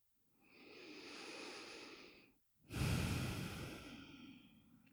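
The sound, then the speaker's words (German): Slow, deep breathing during a guided meditation: a long, soft breath in, a short pause, then a stronger, rushing breath out that gradually fades. Both breaths are quiet and airy, with no talk over them. “Atme ein und aus.”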